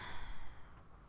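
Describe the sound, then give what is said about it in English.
A soft, airy breath drawn in during a guided breathing exercise, faint and brief, trailing off into quiet. “Breathe in and out. Breathe in.”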